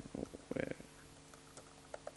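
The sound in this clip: Faint typing on a computer keyboard while entering a new item into software: a few quick clusters of soft key clicks, then scattered single taps.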